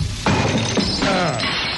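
Glass shattering in one loud, sustained crash of breaking fragments that rings and tinkles for nearly two seconds.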